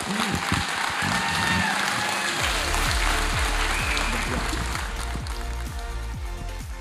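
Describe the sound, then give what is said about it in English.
Applause from a church audience on its feet welcoming a guest pastor: dense, sustained clapping that stays strong throughout and eases slightly toward the end. “I want you to stand on your feet and put your hands together and help me welcome Pastor Kent Jobe to the place today.”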